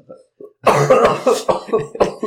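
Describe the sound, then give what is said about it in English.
Coughing and throat clearing from a person with something caught in the throat: a run of rough, rhythmic bursts follows a couple of faint short sounds at the start. “Oh, sorry, I got something in my throat.”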